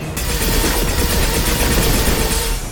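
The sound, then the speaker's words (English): Heavy machine-gun fire from a video game rattles out in one rapid, unbroken burst lasting nearly the whole stretch, loud and dense, then cuts off at the end. “Oh boy, that's a big machine gun.”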